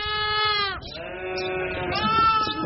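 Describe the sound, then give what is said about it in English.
Lambs bleat in a crowded pen in Mongolia, about a hundred of them. Several wavering, nasal cries overlap continuously and loudly, one rising over another without a break. “Okay, this pen is just full of lambs, like 100 lambs,”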